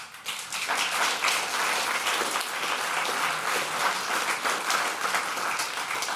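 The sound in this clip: Applause from a packed audience at a forum evening in a rooftop lounge on the 14th floor in Berlin: dense, steady clapping from many hands that swells in quickly and holds evenly for about six seconds.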